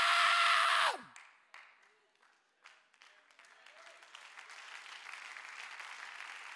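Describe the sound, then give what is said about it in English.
Audience applause during a sermon: a loud voice cuts off, a hush follows, then many claps fade in and build into steady, dense applause. “I hope you're not applauding my preaching right now. I hope when you're clapping because you say, I feel that too, preacher.”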